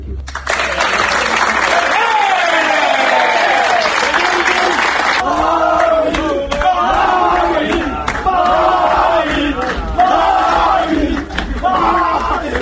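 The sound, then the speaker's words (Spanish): Teammates applaud and cheer a departing player in a locker room: loud, continuous clapping mixed with shouting voices. The shouts then turn into rhythmic, chant-like bursts over the ongoing applause. “frente a sus compañeros, que ya lo escucháis, han acabado ovacionándole y, bueno, pues dándole el cariño que se merece a Aguer Mabil”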